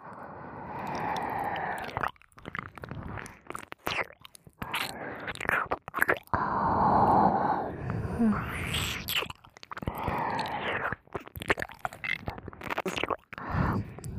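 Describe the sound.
Wet ASMR ear-licking sounds are recorded close to the microphone, with many soft smacks, slurps and tongue clicks in an uneven, continuous rhythm, mixed with breathy whispering.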